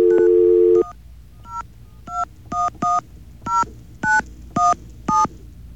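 Telephone keypad dialing: a longer tone opens, then a string of short, bright two-pitch beeps follows as digits are pressed. The beeps are evenly loud with slightly uneven gaps and a faint background hum.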